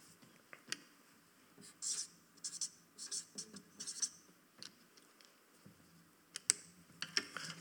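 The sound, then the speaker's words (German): A pen scratches across a sheet of paper in many short, quiet strokes, with irregular taps and scrapes as words are written. “Ihr seht diesen Zettel hier. Ich schreibe mal was drauf.”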